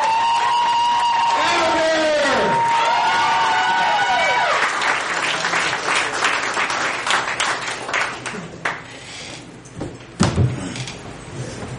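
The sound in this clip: An audience cheers and applauds as a performer called MC is brought up at a gathering. Whooping voices come first, then a burst of clapping that thins out and grows quieter toward the end.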